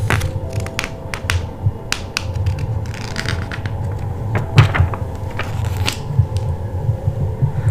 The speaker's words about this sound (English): One by one, lick of the finger, the peel of the corner of the page.